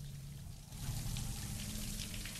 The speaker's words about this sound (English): Light plays disturbingly in a thicket of thorns. That's what I'm doing. The woman stands beneath the shower.